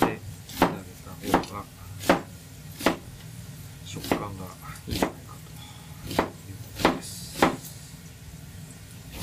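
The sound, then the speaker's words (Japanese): A knife slicing an onion along the grain while cooking spaghetti alla gricia: a steady series of sharp, crisp cuts, about one every second, each thudding on the cutting board, with no talk. “玉ねぎスライス繊維に沿って”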